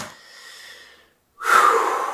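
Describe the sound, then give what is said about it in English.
A quick deep breath taken by a man pausing mid-talk: a soft airy breath fades into a brief silence, then a sharp, loud, hissing intake of air follows, with no words spoken. “let me take a breath. Let me take a breath real quick.”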